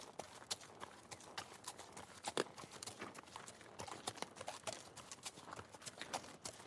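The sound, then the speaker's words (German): Horse hooves clip-clop as a rider descends a winding road below a castle. The steps are faint, many and irregular, with occasional sharper strikes. “Zum ersten Mal reitet Götz nicht selbstbewusst und furchtlos die gewundene Straße unterhalb Burg Hornbergs hinab.”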